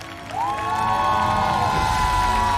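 An audience at a Chinese folk-style music event applauds and cheers to welcome guests, sustained loud crowd noise with a clear musical tone rising in early and holding throughout.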